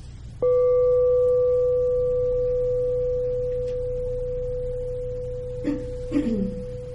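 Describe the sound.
A meditation bell rings once with a clear, pure, sustained tone. The struck note rings on for several seconds and fades slowly, with faint higher partials above it. No talking is heard over the ringing.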